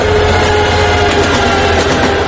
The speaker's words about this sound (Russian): Поезд «Москва-Ижевск».